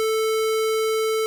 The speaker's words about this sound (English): You can make square waves. They sound like this.